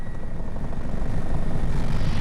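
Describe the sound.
An emergency medical rescue helicopter roars in flight, a dense, loud, continuous engine and rotor rumble with a fast, even pulse and no voices.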